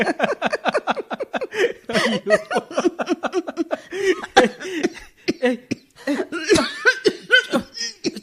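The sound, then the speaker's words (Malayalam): Coughing from a character in a Malayalam radio drama, several rough bursts mixed with short laughing sounds in a quick, uneven series. “ചുമക്കാതെ”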